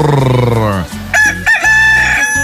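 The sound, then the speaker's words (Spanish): A rooster crows, the early-rising rooster of San Cristóbal, with one loud, long, harmonic call that fills the opening second and then ends. “¡Ah, qué bonito canta mi gallo, el gallo madrugador de San Cristóbal, sí señor!”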